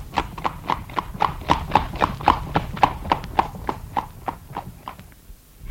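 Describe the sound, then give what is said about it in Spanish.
Horses galloping off in flight, heard as a long, steady run of many sharp clip-clop hoofbeats at an even, quick rhythm, loud and clear with no voices. “El príncipe y Blanca Flor partieron al galope.”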